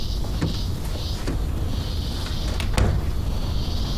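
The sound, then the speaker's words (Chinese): A door is pushed shut in an office with one dull thud, preceded by a few lighter knocks and clicks over a steady background hiss. “把门关上。”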